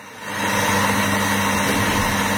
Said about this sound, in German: Hier wird gerade ein Cappuccino zubereitet.